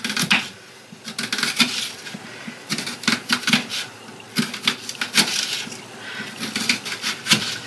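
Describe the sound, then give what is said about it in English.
A paring knife thinly slices peeled onion on a board, making many quick, light, crisp taps in irregular bursts, with brief pauses between runs of cuts. “So what I'm going to do is I'm going to... Onion. Cut them very thinly.”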